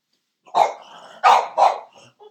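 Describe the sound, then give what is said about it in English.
A dog barks three times in loud, sharp bursts, with a quieter growly sound between them and a brief soft sound at the end. No one speaks. “You got to excuse my dog. He's very excited about these analysis here.”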